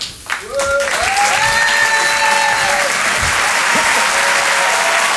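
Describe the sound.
Audience applause greeting a comedian's arrival on stage, loud, dense and sustained from just after the start to the end.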